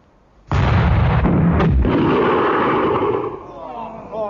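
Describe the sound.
A cannon fires and its vent plug blows out of the breech, giving one sudden loud boom that becomes a long, broad roaring rush and slowly eases away over several seconds.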